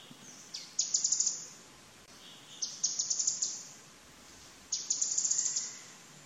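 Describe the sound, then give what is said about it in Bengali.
Canary flycatcher song: three faint bursts of rapid, high-pitched chirping notes, each a quick run of several tweets separated by short pauses. “তো আমি canary fly ক্যাচারের আওয়াজ আপনাদের শোনাচ্ছি।”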